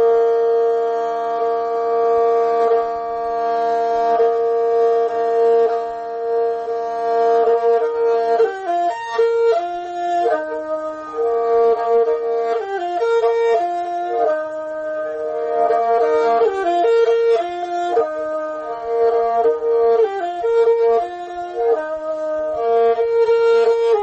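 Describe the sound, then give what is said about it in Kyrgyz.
A kyak, the Kyrgyz bowed fiddle, plays the traditional piece Jusup and Zulaika. Steady, sustained bowed notes open the piece, then a shifting melody of quick note changes runs over a continuous drone, loud and unaccompanied. “ошол чыгармаларды тартып кыяк тарткан абдан жакшы көрөм. Анда Жусуп менен Зулайка деген чыгарманы карап берейин.”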